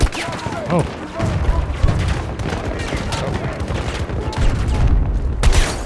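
Rapid gunfire in a war video game as Russian forces attack an objective, with DMR rifles and an enemy vehicle in play. Dense, overlapping shots and bursts run continuously and stay loud throughout.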